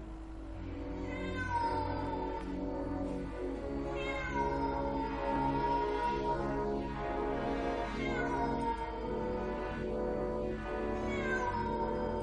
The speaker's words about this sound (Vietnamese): con mèo ở trên tầng bỗng kêu lên thảm thiết